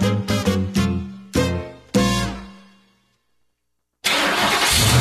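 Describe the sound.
A diesel engine starts with a few sharp, loud bursts that ring and fade, then a short silence. After that, steady, loud engine noise runs to the end.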